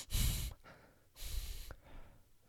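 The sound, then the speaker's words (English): Breathing through the nose: two loud, airy breaths of about half a second each, followed by a fainter third breath, with no talking. “I am such a mouth breather. Here's me through my nose.”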